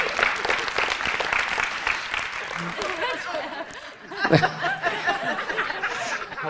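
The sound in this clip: An audience at a morning gathering applauds to welcome a guest speaker named Luis. Brisk clapping fills the first few seconds, then thins out, with scattered chuckles and talk continuing.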